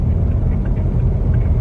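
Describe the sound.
Steady low engine rumble and road hum from a car driving out of a bushfire danger zone. The drone holds an even loudness throughout, with no clear voices.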